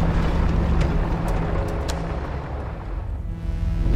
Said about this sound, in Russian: Машина останавливается.